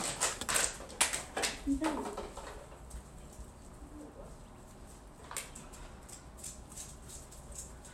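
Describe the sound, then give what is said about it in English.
Dog chewing a plastic water bottle, with a burst of many sharp crinkling clicks and crunches over the first two seconds, then sparser, fainter crackles over steady background noise. “Excuse the noise, my dog's caught a water bottle.”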